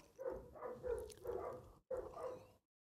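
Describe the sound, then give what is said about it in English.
Two dogs bark in a rapid series of several sharp barks at a moderate level. The barking has a brief gap in the middle and stops abruptly near the end. “I do apologize for the dogs. I know it's showing up. I know it's picking up on the microphone.”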